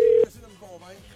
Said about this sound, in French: Ça sonne-tu? Oui, ça sonne.